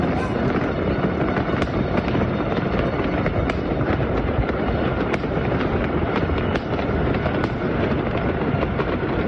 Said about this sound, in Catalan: Això que sentiràs és una presa de vídeo des d'un punt alt de la ciutat, el Tibidabo de Nàpols, on es pot veure i sentir pirotècnia a tots els barris de la ciutat.